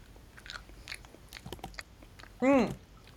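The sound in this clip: A crunchy bite into a vanilla ice cream flavoured candy comes as one sharp, loud burst near the end, after a stretch of quiet mouth sounds and soft talk.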